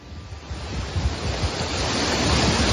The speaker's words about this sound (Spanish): Este es el sonido de los riachuelos bajando cargados de agua.